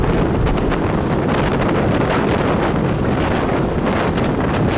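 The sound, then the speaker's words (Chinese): Loud, roaring wind of a sandstorm abruptly turning into a blizzard, a dense steady rush of gusting air that fills the whole clip without a break and with no voices. “一瞬间，从沙尘暴到暴风雪，这样的天气骤变十分罕见。”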